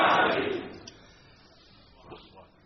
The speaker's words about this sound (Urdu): نعرہ تکبیر، نعرہ رسالت، نعرہ حیدری.